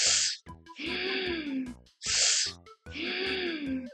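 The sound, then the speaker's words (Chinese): Deep breaths taken outdoors beside a park with cherry blossoms: two cycles, each a sharp breathy intake followed by a long voiced, sighing exhale whose pitch rises slightly and then falls. “咁当然深呼吸几下，”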